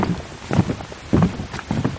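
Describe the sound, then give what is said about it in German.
Footsteps fall on a wooden floor as people walk across it: a few hollow, moderately loud thuds at an uneven walking pace. “denke die ganze Zeit an diesen Holzboden, auf dem wir gerade rumlaufen, wie schön er sich anhört. Willst du nicht mal das Mikrofon da hinhalten kurz?”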